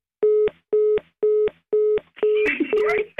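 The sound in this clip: Ringback tone of an outgoing phone call connecting: a steady mid-pitched tone pulses on and off at an even rhythm, five bursts in all, with the last one overlapped by noisy rustling and a voice.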